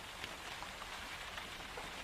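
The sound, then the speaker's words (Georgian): Steady rain falls outside, a dense, even hiss of drops striking surfaces with faint scattered patters, unbroken and alone for the whole stretch with no voices. “გარეთ ისევ წვიმს და სული წვიმებს.”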